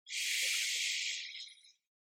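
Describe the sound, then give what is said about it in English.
A single deep breath is drawn in through the nose during a closing breathing exercise. The airy, hissing inhale starts suddenly, holds steady, then tapers off after under two seconds, faint and alone with silence after. “Close it out with a round of breath to really seal in what's been here. Inhaling through the nose.”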